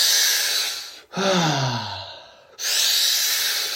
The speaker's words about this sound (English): Give it all you got. Pick up the pace. Breathe a little bit deeper.